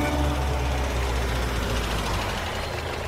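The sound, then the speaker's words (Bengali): A car engine gives a steady, low, even rumble as the car comes up a palm-lined drive and stops beneath a large portico. No voices are heard. “দুদিকে পাম গাছের সারিওয়ালা রাস্তা পেরিয়ে বিরাট portico নিচে এসে আমাদের গাড়ি থামল।”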